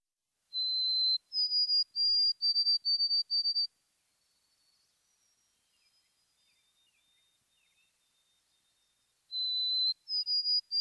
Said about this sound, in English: White-throated sparrow.